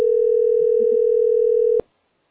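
A steady telephone dial tone hums as a call is being placed: one unbroken mid-pitched note held at even loudness, then cut off abruptly with a brief click near the end.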